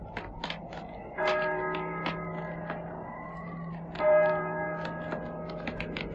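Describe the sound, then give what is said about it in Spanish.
Church bells toll slowly and monotonously on All Saints' Day. Two strong strikes ring out with long, sustained humming tones, among lighter, quicker metallic tings. “y el triste y monótono doblar de las campanas.”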